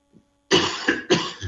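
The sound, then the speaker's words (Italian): Harsh, dry coughing from a man speaking in Italian: a burst of a few rough coughs, two strong ones with weaker ones between and after, preceded by a faint throat sound. “Chiedo scusa dei miei colpi di tosse, ma sono ineliminabili.”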